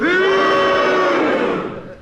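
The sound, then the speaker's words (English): A game-show studio audience boos together on cue, a loud, sustained, droning vocal groan from many people that tapers off toward the end. “They don't think it was hesitation. They never think anything. They always boo.”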